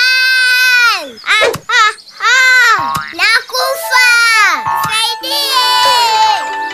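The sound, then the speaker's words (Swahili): A voice imitates the crying of Lui, a little fish stranded on land out of the water: high, wailing sobs in several bursts with swooping, falling pitch. “Nani huyo analia? Oh! Oh, ni Lui, Kiluilui. Inaonekana ameangushwa kutoka kwenye maji na yupo ardhini akihangaika.”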